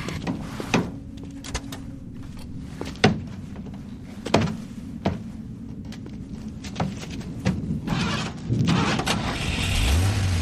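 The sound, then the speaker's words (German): A parked car is hotwired: many sharp clicks, clunks and rattles at an uneven pace, with a low engine rumble rising near the end. “wie seine Begleiterin das stehende Fahrzeug kurzschloss”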